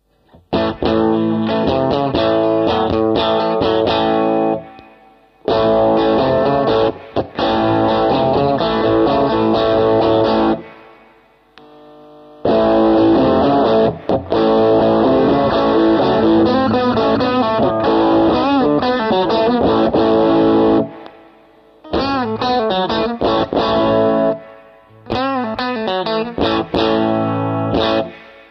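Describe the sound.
Electric guitar played through overdrive pedals: a base tone, a Bluesbreaker-style heavier crunch and a thickened drive setting. Loud, distorted chords and riffs come in several phrases separated by short silences.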